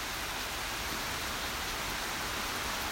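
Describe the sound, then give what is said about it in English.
Heavy torrential rain pours down in a park in the Harrisburg area, a steady, dense hiss of downpour that stays even and unbroken throughout, with no voices. “You can hear the rain in the background coming down ever harder.”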